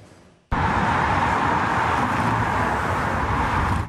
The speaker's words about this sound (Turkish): Birçok kentte yoğunluk dün de devam etti. Yollarda uzun araç kuyrukları oluştu.